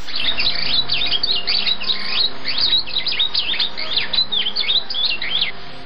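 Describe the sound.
Birdsong from a golden bird living in a golden tree on an island: rapid, high-pitched chirps and twittering trills that repeat continuously and fairly loudly over a steady low background.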